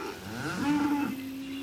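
A cow gives a single low moo that swells and then holds a steady droning pitch, with a second cow faintly lowing beneath it, as the herd waits to be milked.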